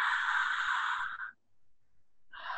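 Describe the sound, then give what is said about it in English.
A deep breath during a calming breathing exercise: a long, breathy exhale lasting just over a second, then a short silence before the next breath begins. No voices. “stop and take 3 breaths. That's it. 3 breaths.”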